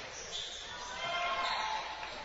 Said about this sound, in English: Dieter dribbles right side.